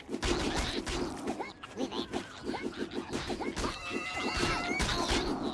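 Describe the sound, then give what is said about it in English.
Boars in a video game squealing as if in pain: rapid, rhythmic squealing grunts repeat throughout, over a dense, busy layer of game sound. “the boars sound like they're already in pain when they like, come to try and beat the crap out of you”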